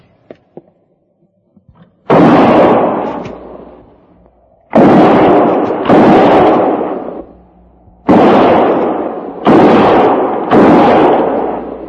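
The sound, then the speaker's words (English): Six loud gunshots fired between trees, each a sharp blast with a rumbling decay, coming at irregular intervals with near silence before the first. “We'll try a diversion. Might bring them out. And no more than 3 rounds each. Fire between the trees.”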